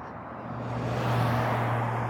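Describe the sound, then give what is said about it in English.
Cars pass on a road as a steady whooshing traffic noise with a low droning hum, swelling slightly louder toward the middle and holding there. “a lot of cars on this road”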